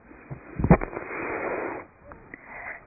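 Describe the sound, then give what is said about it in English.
A slow inhalation through the left nostril during an alternate-nostril breathing exercise: a soft, steady rush of air lasting about a second, preceded by a brief click, fairly faint overall. “Inhale through your left nostril.”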